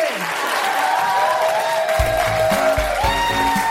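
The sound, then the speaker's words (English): Live audience applause for the co-host at the close of a comedy show, a steady dense clatter of many hands that stays loud throughout, with music and low bass notes entering halfway. “A huge round of applause for my incredible co-pilot, Kiva.”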